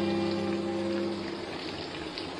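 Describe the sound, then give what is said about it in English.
Steady rain on an October evening, the first rain of the season, forming a continuous dense hiss and patter that holds an even level throughout. “On the evening of October 4th came the first rain of the season.”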